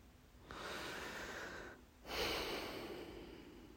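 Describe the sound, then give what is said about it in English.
A long deep breath taken during a guided mindfulness exercise: two sustained breathy swells of soft, airy noise, the second slightly louder, with no talking. “Let's take a long deep breath.”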